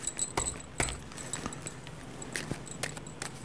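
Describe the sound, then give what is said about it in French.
A deck of cards is shuffled briefly during a card reading, giving a few soft, papery flicks and riffle bursts at an irregular pace, with no voices. “Je prends le jeu, je mélange un petit coup pour bien mettre d'autres énergies.”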